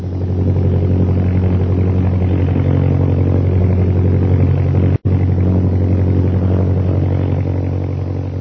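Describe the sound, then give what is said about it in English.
Propeller airplane engine roaring during a dive, a loud, dense low drone with strong harmonics that holds level throughout, broken only by a very brief cut midway. “Jim, I have to turn my motor on. We're losing altitude and flying speed.”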